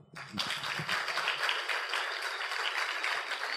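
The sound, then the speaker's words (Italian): Audience applause at an evening contest finale, a fairly faint, dense and steady patter of many hands clapping that rises quickly after a brief low sound at the start and holds evenly to the end. “Applauso.”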